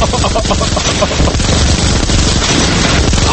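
Gunshots from a Colt pistol in a video game: a loud, dense burst of rapid firing that runs without a break for the whole stretch.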